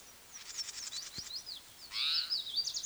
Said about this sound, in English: The cry is possibly by another bird.